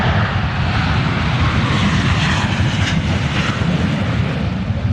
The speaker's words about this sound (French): Ça, c'est le bruit d'un FA-18 à l'aéroport de Payerne.